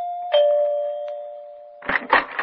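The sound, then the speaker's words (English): A doorbell at the entrance of a large country house at the end of a private road rings with a clear, sustained chime. The tone fades slowly before other, louder sounds cut in near the end. “I was so tired, I had to back up and take a running start to press the doorbell.”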